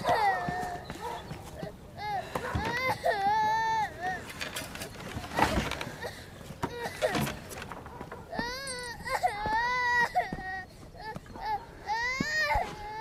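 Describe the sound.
A girl cries and sobs beside a dog sitting by its kennel, her wavering, high wails rising and breaking in repeated bursts, with short gasping pauses between the sobs.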